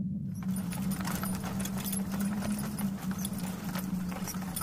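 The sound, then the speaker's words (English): Hooves of a mule pulling a wagon along a misty street clop steadily in many quick beats, mixed with jangling metal and over a low, constant drone. “Hress Dunter, who pulls along a mule-led wagon.”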